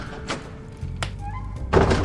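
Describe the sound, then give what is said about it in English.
A door shut sharply on the first floor of an old inn gives a dull, muffled thunk among a few soft knocks and bumps, with the last impact the loudest. “There was another pause, and then a door was closed rather sharply on the first floor,”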